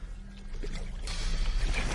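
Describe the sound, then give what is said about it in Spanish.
A motorboat drags along a shallow bottom toward the shore, giving a steady low rumble mixed with hissing water noise that grows somewhat louder in the second half. “Estamos arrastrándonos sobre el fondo. La lancha irá arrastrándose hasta la orilla.”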